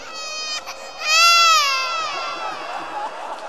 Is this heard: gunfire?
no